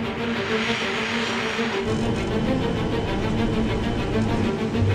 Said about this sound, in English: After spending a month in the simulator and learning the basic operations of the aircraft, pilots begin flying training missions in the A-10.